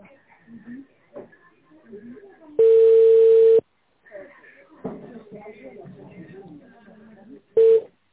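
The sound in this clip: A telephone ringback tone plays while a call is transferred. A steady, mid-pitched tone holds for about a second, followed by a long pause with only faint background sounds, then a brief second burst of the tone.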